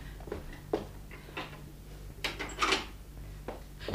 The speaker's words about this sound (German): Wacht mal, ich schließ die Tür zu.